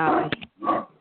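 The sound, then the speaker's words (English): A dog barks or yelps in a few short, harmonic bursts with brief pauses between them. The sounds are loud and heard alone. “That's my dog, sorry.”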